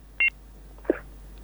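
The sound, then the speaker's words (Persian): Two short, high electronic beeps sound in quick succession on a phone line as a call drops from a technical fault, followed by a faint soft thump against low line hiss. “آها تماس از اینا قطع شد، مشکل تکنیکی بود”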